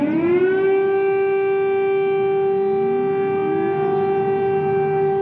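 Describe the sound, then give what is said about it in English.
Air raid sirens wail over Kyiv, a loud steady tone rich in harmonics that holds unbroken throughout, with a second siren's pitch climbing underneath midway. “Those still there in Kyiv who did not evacuate or did not run into the subways for shelter, again heard the air raid sirens warning that more attacks would be coming.”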